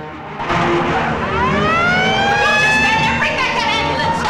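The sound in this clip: An ambulance siren wails as the ambulance speeds off, its loud, high tone sweeping up and down in pitch over a steady rumble of engine and road noise.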